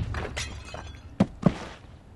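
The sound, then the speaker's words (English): A thrown potted plant smashes against a person: two sharp, loud crashing impacts land close together, standing out above a low, noisy background. “A potted plant came flying out of nowhere and cold-cocked her. Nice throw!”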